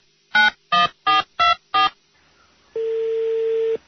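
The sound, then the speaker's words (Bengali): Five clear touch-tone key beeps as a telephone call is dialed, evenly spaced and crisp, followed after a short pause by a steady, continuous line tone lasting about a second. “এই মুহূর্তে আমরা ফোনে যোগাযোগ করছি মুক্তার শ্বশুর আসাদ গুলজার সাহেবের সাথে।”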